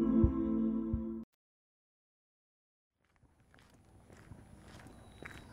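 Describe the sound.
Faint footsteps walking over the old Kuper Island Residential School site, a few soft irregular steps in the second half, coming after a short loud tonal sound and a stretch of silence.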